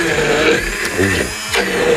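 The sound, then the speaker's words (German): A hand blender purees banana, avocado, yogurt and cocoa in a steady, loud motorized whir that runs the whole time, its pitch wavering and its loudness dipping briefly a couple of times. “Also du hast jetzt da die Banane drin, die Avocado, bisschen Joghurt, bisschen Kakao und das jetzt einfach pürieren. Hm. Pürieren? Genau. Das ist eine meiner leichtesten Übungen mit einem Zauberstab hier.”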